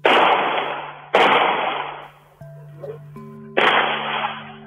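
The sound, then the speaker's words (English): Gunfire at a family home at 10 p.m.: three loud, sharp cracks, each trailing into a long decaying rumble. Between the second and third, quieter steady tones hum alone. “Monday evening, 10 p.m. The sound of shooting.”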